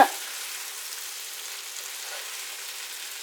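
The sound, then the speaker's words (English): Food sizzles in a nonstick frying pan with a steady, bright, even hiss that holds at a constant level from start to finish. No talking is heard. “keep an ear on your pan, because once the sizzle starts getting real strong, you know that something is sticking, even though you have a nonstick pan”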